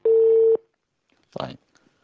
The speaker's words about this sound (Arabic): طيب انقطع الاتصال تقريبا